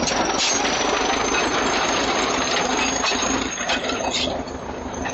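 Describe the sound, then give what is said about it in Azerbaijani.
A tractor's engine drones loudly and steadily as it clears a village road, a rough, continuous mechanical rumble that holds nearly level throughout and eases slightly toward the end. “Elə girəcəkdə cəmaat yığışıb yolu təmizləyən traktoru tamaşa edirdi.”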